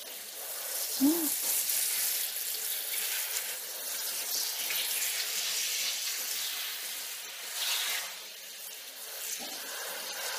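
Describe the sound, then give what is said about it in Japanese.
Tap water running steadily while rinsing hair down to the hairline during a hair wash, an even, continuous rushing hiss that holds for the whole stretch with only slight swells. “髪の生え際まで流して、軽く油を流しておかないといけませんからね。”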